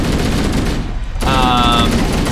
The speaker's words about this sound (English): So this is the Chicago hello, where we load our machine gun up and then we let it rip.